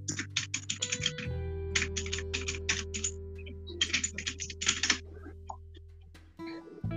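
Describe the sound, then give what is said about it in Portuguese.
Typing on a computer keyboard: bursts of rapid, clattering keystrokes with a brief pause between runs, over a faint steady hum. “Para de digitar, pelo amor de Deus. Não digite no meio.”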